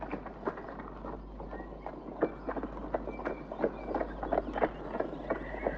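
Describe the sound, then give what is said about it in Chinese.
Hooves of a horse-drawn carriage clip-clop in a steady, even rhythm of many sharp beats over a low constant hum, with no talking. “约翰兄妹，坐上马车朝桑菲尔德奔去。”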